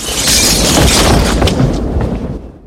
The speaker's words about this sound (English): The windows crack. The draft from the flying chopper causes the windows to shatter.